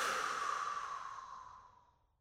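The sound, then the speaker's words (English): A deep breath blown out in a long, airy exhale, a soft breathy rush that starts full and fades steadily to silence over about two seconds. “Deep breath in. Blow it out, emptying your mind of mental content.”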